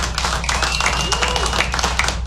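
Audience clapping at a stand-up comedy show: brisk, crisp claps from many hands in a steady burst, with some crowd noise mixed in.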